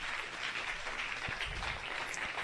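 Applause from an audience welcoming new business members at a local membership gathering: a fairly quiet, steady wash of clapping from many people with no clear break.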